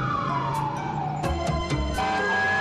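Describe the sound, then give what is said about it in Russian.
An ambulance siren passes with a loud, steady wail whose pitch slides gradually lower as it goes by. A low traffic rumble and a few sharp knocks sit underneath. “Едет скорая помощь,”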